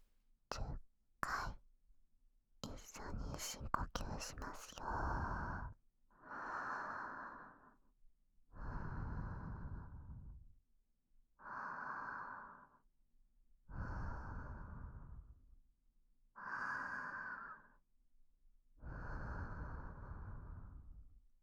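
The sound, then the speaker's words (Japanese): Slow, calm meditation breathing: about seven long, soft breaths drawn in and released at an even, unhurried pace, preceded by a few brief clicks and rustles at the start. “私の呼吸を聞きながら自分の呼吸に意識を向けて、お腹が動くのを感じてみてください。”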